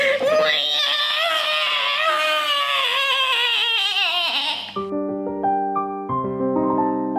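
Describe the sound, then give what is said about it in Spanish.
A newborn baby boy crying just after birth in a Spanish-language radio drama, a loud, high, wavering wail sustained for nearly five seconds before giving way to held musical tones. “y al final, todo un hombrecito que rompió a llorar al sentir el frío terrible del mundo.”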